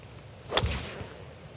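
A golf club strikes a golf ball in one short, sharp whoosh and smack, a single crisp hit that rises out of quiet background and fades within a second.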